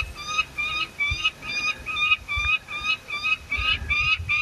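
A bird calls during a mountain hike, near the highest part of the route, in a steady run of many short, nasal, honking notes at a quick, even pace. Faint low breathy huffs sound underneath.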